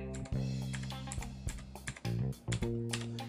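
Typing a command on a computer keyboard: a quick, irregular run of many sharp key clicks.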